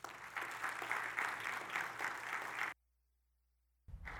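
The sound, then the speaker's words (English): An audience applauds to welcome a guest speaker, with dense, steady clapping for under three seconds. It cuts to silence, then the clapping briefly resumes. “I want you to welcome Abby Johnson. As we watch her on some video interviews, put your hands together for Abby.”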